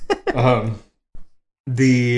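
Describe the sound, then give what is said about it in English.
A man yawns aloud: a drawn-out voiced sound in two stretches, a short faint catch after a pause, then another sustained voiced yawn to the end. “As he yawns.”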